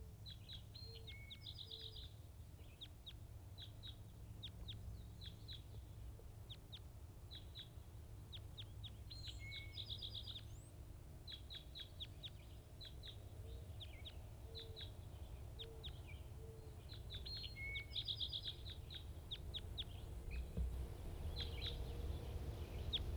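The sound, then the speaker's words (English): A wild bird calls again and again with many short, high chirps and quick trills in loose clusters. The calls are faint over a steady low rumble of background noise. “Recording wild bird.”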